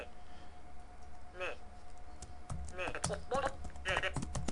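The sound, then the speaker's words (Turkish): Quiet typing on a computer keyboard, with a few scattered bursts of keystrokes and faint voice sounds in between. “Evet, hemen yazıyorum.”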